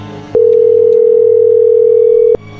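Telephone tone heard while calling someone: one steady, loud, unbroken tone that sounds for about two seconds and then cuts off abruptly.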